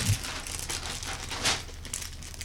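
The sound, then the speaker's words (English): Crinkling and rustling of a jaw harp's packaging being unwrapped, a steady scratchy crackle with one sharper crinkle near the middle. “So much unwrapping to be done.”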